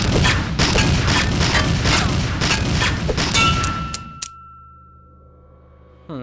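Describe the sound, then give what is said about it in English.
Gunfire bursts with bullets clanging off a metal shovel: dense rapid cracks and booms in a loud continuous barrage, ending abruptly, followed by a sustained faint metallic ring and a brief thump. “You blocked those bullets with your shovel.”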